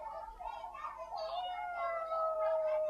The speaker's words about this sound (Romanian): O pisică? Tu ce faci cu ea?